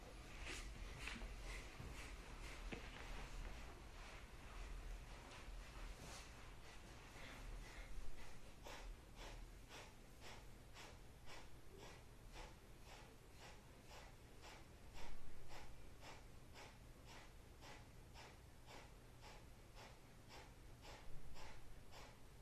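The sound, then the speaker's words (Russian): Kapalabhati yoga breathing with many sharp, forceful exhalations in a quick, even rhythm, faint and alone across the whole stretch, with a few slightly stronger puffs. “садимся в удобную позу и начинаем дышать капалабхати.”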